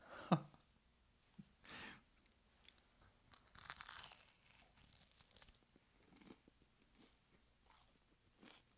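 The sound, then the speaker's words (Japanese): Faint crunching and chewing as someone eats, with a few sharp bites near the start and quieter mouth sounds spread through the rest, without talk. “ちょっと待ってくださいね、今食べてますから。”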